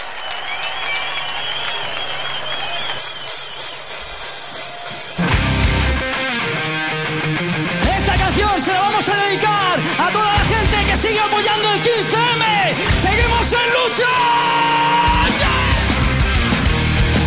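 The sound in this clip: A crowd cheers and yells at a live metal concert, a steady roar of voices and applause. After about five seconds the sound grows louder and fuller and keeps going without a break.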